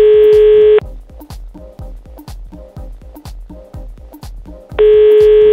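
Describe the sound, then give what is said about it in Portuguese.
Telephone tones as a call is placed: a loud, steady tone at the start and again at the end, with a run of soft, regularly ticking pulses between them. “então vamos ligar pro Felipe pra ver qual que é”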